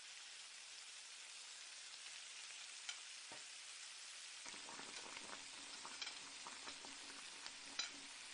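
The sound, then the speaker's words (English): Bearberries and raisins fry in a pan with a steady fine sizzle, faint overall, sprinkled with sharper crackles and pops; the texture grows fuller and lower partway through. “I fry the bearberry and raisins in one pan and orange slices and carrot in another.”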